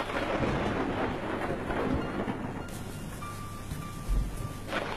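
Light, steady rain falling at night, a faint continuous hiss with a soft low rumble, even and unbroken throughout.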